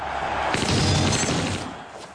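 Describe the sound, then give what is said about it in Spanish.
A single gunshot blast at an office door in a 1998 crime film, a heavy booming burst with a shattering, crashing tail that fades out. “Uno dispara a la puerta.”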